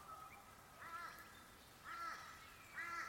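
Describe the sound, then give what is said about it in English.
Faint morning bird calls: three short, harmonic calls spaced about a second apart, heard over a steady soft hiss. “as you come into these sounds of the morning, the various bird song”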